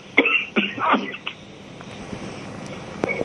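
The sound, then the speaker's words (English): Throat clearing and coughing from someone with something caught in the back of the throat: a few short, harsh bursts at the start, then only a faint background hiss. “I'm just getting something caught in the back of my throat.”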